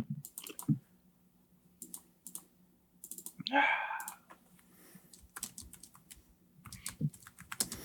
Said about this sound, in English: Hold on, let me pull up my notes here. I'm gonna write that one down.